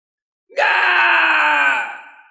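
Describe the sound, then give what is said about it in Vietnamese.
An eerie, shrieking howl comes from a magical elixir creature in a cold underground place. It is a single loud, harmonic cry that holds steady for about a second before fading out. “Đột nhiên truyền tới tiếng rít gào, đó là tiên dược kia phát ra.”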